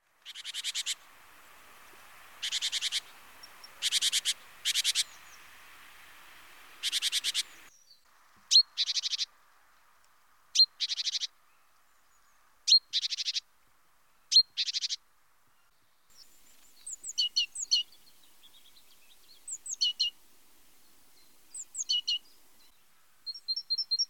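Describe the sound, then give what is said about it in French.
A great tit sings high, bright, repeated two-note phrases in short bursts separated by brief pauses, then shifts to a quicker series of thin, sharp chirps; the bird is heard alone with no voices. “Nous allons à présent écouter le chant d'une autre mésange.”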